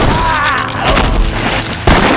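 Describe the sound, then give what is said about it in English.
A single pistol gunshot on a small-town street by a saloon and a hardware store. One sharp, loud bang arrives near the end, after a stretch of lower, rumbling background. “Even as he was finishing his comment, Hennessy pulled the trigger.”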